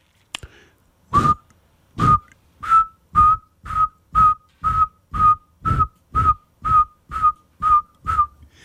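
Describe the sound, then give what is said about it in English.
A human whistle imitates a saw-whet owl's call: a single steady note repeated many times at an even, moderately quick pace. The short, clear toots sound alike and are moderately loud, with nothing else heard around them. “That's a rather poor imitation, but it'll get you there. It's a repetitive single note, and that is the saw-whet owl.”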